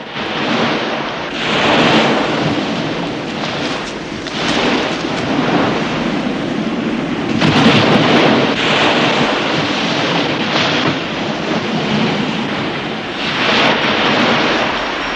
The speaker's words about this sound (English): Waves lap over the object, covering it.